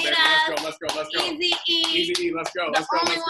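An audience claps at a live show introduction, and loud excited shouts and whoops largely cover the clapping. The burst is energetic and uneven across its few seconds, with short dips between the vocal cheers.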